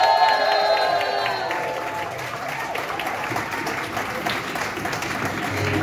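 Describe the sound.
Audience applause and cheering at a women's club event, welcoming a speaker onto the stage after a call for everyone to stand; dense, steady clapping that stays loud throughout.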